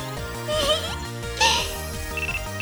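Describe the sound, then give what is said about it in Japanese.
A mobile phone ringing with a melodic electronic ringtone: a bright tune of short notes repeats steadily in a loop, fairly loud throughout. “電話電源切るの忘れてた。”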